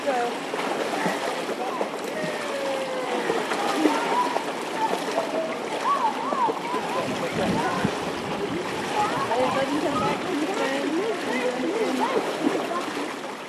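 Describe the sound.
Year-two school children splash as they jump into a swimming pool during a swimming lesson, with steady, overlapping splashing and children's voices throughout.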